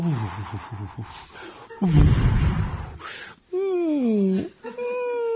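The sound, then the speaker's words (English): A storyteller's voice imitates Lord Rama groaning in pain on his bed: a breathy, noisy burst followed by long, wavering moans. “And on the bed, there was Ram groaning.”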